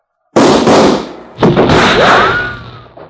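Two loud revolver gunshots ring out in a western-style fight, each a sharp blast with a long decaying tail, the second followed by a thin whining ricochet.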